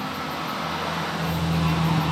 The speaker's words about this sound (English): a few more logging trucks. It's so hot in here if we close all the doors. So they're both open and it's that.